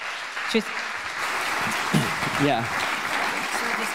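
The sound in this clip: Audience applause at a gathering, a dense, steady patter of clapping that carries through the whole stretch, with voices speaking over it.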